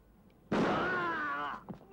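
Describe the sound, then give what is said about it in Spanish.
A single loud pistol gunshot bursts out suddenly, its harsh blast ringing on in a sustained, fading tail for about a second before cutting off. “¿Por qué ha disparado?”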